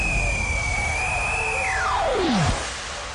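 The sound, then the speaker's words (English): A jet airplane takes off with a broad rushing roar. A high whine holds level, then sweeps steeply down in pitch and cuts off sharply before the roar eases slightly. “Crew, please prepare the cabin for takeoff.”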